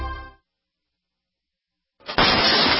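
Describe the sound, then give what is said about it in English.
A door being kicked in by an intruder with a single kick: after a fading low tone and a pause, one loud, harsh crash bursts in and holds as a dense roar to the end. “That's the sound of your door being kicked in by an intruder with a single kick.”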